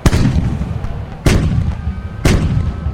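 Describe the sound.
Heavy gunfire in battle, fired on a commander's order: three loud, booming blasts about a second apart, each trailing into a rumbling roar, with a fourth starting just at the end.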